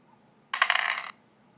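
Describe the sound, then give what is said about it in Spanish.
The Farkle video game plays a sound effect of two dice rolling: a brief, dense clattering rattle lasting about half a second, alone against near silence. “Botón tirar dos dados.”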